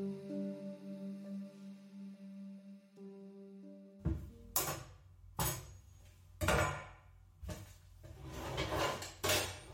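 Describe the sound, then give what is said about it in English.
Kitchen clutter of dishes and drawers: several sharp clattering knocks and clinks in an irregular series follow a few seconds of sustained low musical tones. “Cluttering in the kitchen.”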